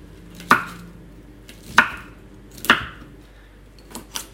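Knife chopping food on a board as a mother cuts ingredients for a dish with a young child: three sharp, evenly spaced chops, then a couple of fainter taps, with no talk.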